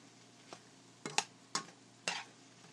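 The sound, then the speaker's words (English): A stir fry, or chow mein, cooks in a pan with a faint low sizzle underneath. A few sharp clatters and scrapes of a utensil against the pan come at irregular intervals. “By the time this gets cooked in, the rest of our stir fry should be ready too.”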